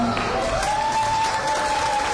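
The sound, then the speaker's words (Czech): Applause greets children walking onto a stage at a celebratory ceremony in Prague's Holešovice, marking the end of their medical treatment. The clapping is dense and loud and continues evenly throughout. “Za doprovodu takového potlesku přicházejí děti na pódium v rámci slavnostního vyřazení z léčby.”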